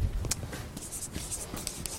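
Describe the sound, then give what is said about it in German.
Scratchy strokes of someone writing a word down during a language lesson, with many short, dry scrapes spread across two seconds and no talking. “Sehr gut, das schreiben wir jetzt mal.”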